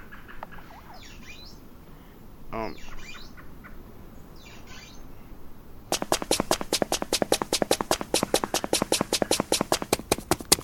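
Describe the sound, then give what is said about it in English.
A video game health-restoring effect: a rapid, steady run of sharp clicking ticks that follows a stretch of faint chirping blips. “And see, as you can hear, as I'm doing this, it's restoring my health.”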